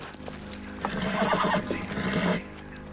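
A pony whinnies loudly as it is urged on, a shaky, wavering neigh with a few hoof clip-clops around it, and no talking.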